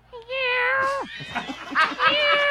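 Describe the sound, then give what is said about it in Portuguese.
A human voice imitates an Angora cat's meow with a long, loud, nasal cry that glides downward in pitch at its end, followed by further broken voiced sounds. “Ah, o angorá é um miado diferente. Vai. O angorá é assim, ó.”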